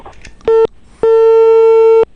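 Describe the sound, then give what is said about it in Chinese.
Telephone tones as a call to a community official's phone rings and is hung up: a brief, buzzy, harmonic-rich tone, a short gap, then a longer steady tone of the same pitch lasting about a second, fairly loud. “春华社区的张书记，电话响了两声挂断了，可能正在开会的过程当中。”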